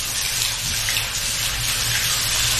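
Water running steadily from a tap while hair is rinsed after a vinegar rinse, a loud, even, continuous splashing gush with no talk.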